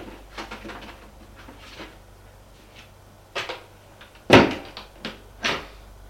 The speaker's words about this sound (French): Là, elle ouvre le placard et remet le cahier en place.